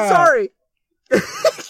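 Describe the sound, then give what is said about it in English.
A dry sneeze bursts out abruptly after a brief silence, a short harsh burst of breath with people talking just before and right after. “I'm sorry. I sneezed on you. It came out of nowhere. I think that was a pretty dry one.”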